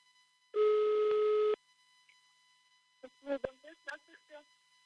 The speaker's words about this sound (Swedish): Och jag har aldrig ringt i Kirgizistan tidigare, kan jag säga. Jag ska få ett jättekort klipp bara för hur det lät.